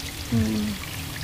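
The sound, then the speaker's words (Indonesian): Spring water at the Cikapundung springs flows in a soft, steady wash of noise, quiet throughout and with no talk. “terus mengalir dan yang pasti memang kalau untuk mata air ini airnya masih sangat bagus, kualitasnya juga masih sangat oke.”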